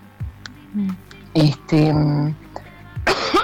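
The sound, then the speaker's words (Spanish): A few short, dry coughs from a person with a slight cough, separated by throaty voiced sounds and breaths. “disculpen, estoy con un poco de tos.”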